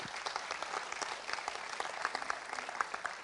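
Audience applause welcoming a man called to the front at a church service: dense, even clapping from many hands, fairly quiet and steady throughout with no break.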